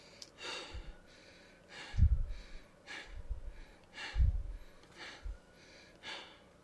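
Fast, continuous breathing, inhaling and exhaling with no pauses between breaths: a quiet, rapid, rhythmic series of airy rushes through the nose and mouth, heard alone without speech.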